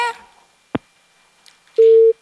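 A single steady mid-pitched telephone tone, the busy signal after a caller's line cut off during a phone-in, sounds loud and brief near the end, preceded by a faint click.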